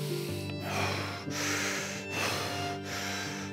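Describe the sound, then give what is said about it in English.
Deep, rapid, rasping breaths come as a rhythmic series of noisy gasps, each separated by a short pause, heard faintly over a soft sustained tonal bed. “let your breath go in deep and rapid rasping gasps, like”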